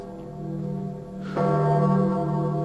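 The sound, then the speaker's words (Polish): Church bells ring out with a sudden clang midway, followed by loud, sustained, overlapping resonant tones that hold to the end above a low hum. “Co to jest? A, to niech pan się nie boi. To dzwony.”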